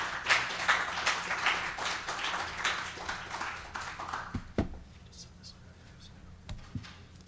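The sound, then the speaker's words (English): Audience applause following a speaker's introduction: a dense burst of clapping for about four seconds, then it dies away to near quiet with a few isolated knocks. “So let's welcome Michael. Big hand, please.”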